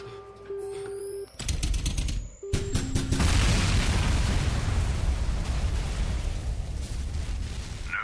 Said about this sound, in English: Detonation in 10 seconds. Detonation in 5 seconds.